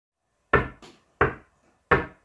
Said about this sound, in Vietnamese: bên ngoài vang lên tiếng gõ cửa